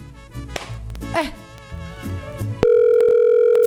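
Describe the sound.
A steady electronic telephone tone from a call going unanswered starts abruptly after people talk and holds at one pitch, loud, until the end.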